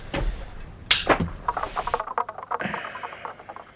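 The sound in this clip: A single sharp gunshot fired at a Triffid cracks out about a second in, loud and bright against a noisy, shuffling background of other movement.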